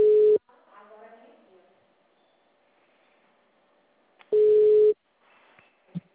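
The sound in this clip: A telephone call being transferred to another extension: two loud, steady electronic tones separated by a few seconds of faint line hiss, then a brief click.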